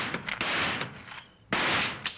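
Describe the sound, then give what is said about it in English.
Sharp gunshots fired to blast a door lock off, a few loud, abrupt cracks in quick succession, each bursting across the whole range and then cutting off, with no talk over them. “Then I can shoot this lock off. Stand back, will you, honey?”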